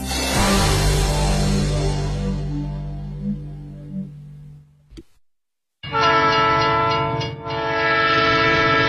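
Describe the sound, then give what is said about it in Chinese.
A K845 passenger train from Guiyang pulls into Ningbo station. A loud rolling rumble and clatter fades away, then after a brief silence a sustained, steady train horn blares through to the end. “五点半，由贵阳开往宁波的 K 八四五次普苏列车驶入了宁波站。”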